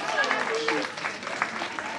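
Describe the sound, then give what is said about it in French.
Applause for a contestant on a sports quiz game show, a dense, steady patter of clapping with a voice speaking over it near the start. “Avec un tonnerre d'applaudissements pour Ronan ! Bravo Ronan !”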